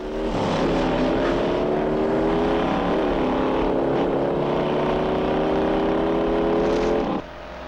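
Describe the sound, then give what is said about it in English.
Engine of a battered sedan, missing a wheel rim, driving frantically: a loud, unbroken roar with a strong harmonic whine that wavers slightly in pitch, running steadily before cutting off sharply near the end. “The sedan sheds another wheel rim and motors through yet another stop sign.”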